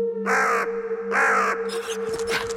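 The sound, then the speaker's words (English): Crows caw harshly: two long, drawn-out squawks, then a flurry of shorter, rougher calls, loud and clear over a faint steady hum. “And the crow in the middle just kind of turns and starts squawking at us.”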